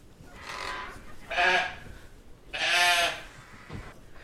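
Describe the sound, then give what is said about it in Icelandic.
Sheep bleating inside a sheep shed holding around ninety-odd sheep: three loud, quavering bleats spaced about a second apart, followed by a brief fainter call near the end. “Herðu, hér erum við í fjárhúsunum, hrein og fín.”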